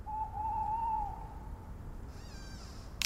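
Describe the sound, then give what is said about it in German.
A tawny owl hooting at night outside tents: one long, steady, drawn-out hoot, then a fainter, quavering tremolo phrase, both quiet over a soft background hiss. “Draußen vor den Zelten knackt es und manchmal hört man einen Waldkauz.”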